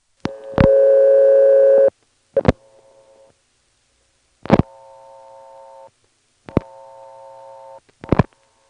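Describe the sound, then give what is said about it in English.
Telephone dialing on a phone line where a toll-access code is blocked: a loud steady tone, then sharp clicks, each followed by a quieter buzzing tone of about a second, repeating several times without voices. “I'm going to try dialing 39 plus the absorbed digit 4 and then a 1, and then we'll see whether there really aren't any toll trunks there.”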